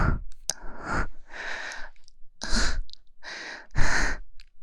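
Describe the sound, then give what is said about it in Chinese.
Rapid, agitated breathing: a run of loud, harsh gasping inhales and exhales in quick succession, each a rough burst of breath noise, with no talk. “怎么呼吸啊？我变得这么急促，这个时候冷静一点，”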